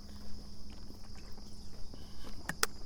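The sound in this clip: Footsteps of a runner on a walk break, soft repeated treads in an irregular rhythm over a faint background, with a couple of sharper clicks near the end.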